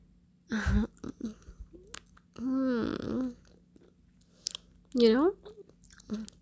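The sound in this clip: Someone chews food with a few moist biting and crunching noises, interspersed with voiced murmurs between quieter pauses.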